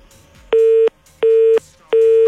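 A busy signal after a phone call cuts off: three loud, even tone beeps of equal length with short silent gaps between them, heard alone.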